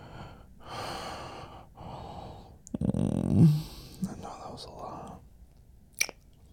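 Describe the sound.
Heavy breathing of someone catching their breath: a few long breathy exhales and gasps, one louder and rougher stretch in the middle, then quieter breaths and a short sharp intake near the end.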